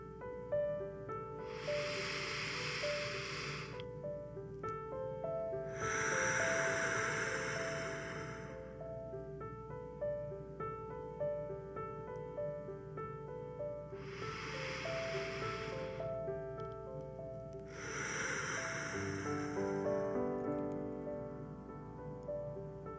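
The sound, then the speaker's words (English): Deep breaths taken together during a guided relaxation: several long, airy whooshes of inhaling and exhaling, spaced apart, over soft sustained background music. “Let's take three deep breaths together as we begin to relax our body and mind.”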